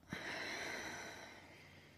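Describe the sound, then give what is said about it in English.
A faint, airy deep breath, a single soft rush of air that starts abruptly and slowly fades over about two seconds, alone without any talk. “So deep breath in and deep breath out.”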